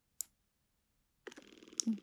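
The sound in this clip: A small suction device gives one sharp click as its power button is pressed, then after a short pause it starts running with a faint, rapid pulsing putter.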